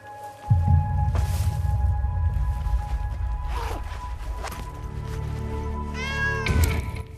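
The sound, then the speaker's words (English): A ginger cat on a purple lead meows at night beside a canal, giving a few drawn-out, wavering cries spaced apart over a steady low rumble. “He lifts out a ginger cat attached to a purple lead.”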